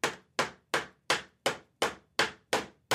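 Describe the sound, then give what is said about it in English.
Hammering nails into a wooden church door, as with Luther posting his 95 theses: a steady series of sharp, bright hammer blows lands about every third of a second, each ringing out and fading before the next, with no voices. “nailing something into a church door. I know that there's some historical dispute about how it actually went down. But here's Luther nailing his 95 theses.”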